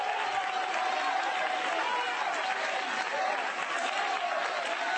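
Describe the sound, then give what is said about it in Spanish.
Congregation applause during a Spanish-language church sermon, a dense, steady wash of clapping that holds evenly for the whole stretch. “Yo voy a aplaudir por algunos que no pueden en esta hora.”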